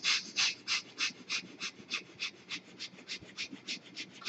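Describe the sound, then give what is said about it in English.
Quick, short breaths in a guided breathing exercise, evenly paced breathy puffs repeating many times at a steady rhythm, heard alone. “Just casually being cheerful, continue the journey of quick and short breath.”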